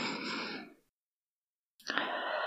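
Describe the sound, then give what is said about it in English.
Deep breaths taken slowly during a calming exercise: a long, breathy sigh that fades into silence, then a second deep breath starting abruptly after the pause. “if you want to take a couple deep breaths with me,”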